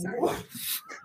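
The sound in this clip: A dog gives a brief whimpering, yelping sound, blended with people talking over it.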